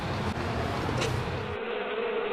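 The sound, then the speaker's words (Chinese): A dense buzz of honeybees pouring out of their hives as the midday heat rises. The steady, loud drone holds for the whole clip, and its upper hiss drops away partway through. “临近中午，温度越来越高，蜜蜂大量外逃。”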